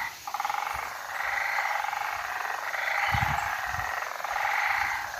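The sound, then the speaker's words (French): Frogs croak in a forest on Mauritius, a steady, dense chorus of buzzing, pulsing calls that swells and ebbs in waves, with a few soft low thumps underneath. “Je pense que c'est des grenouilles.”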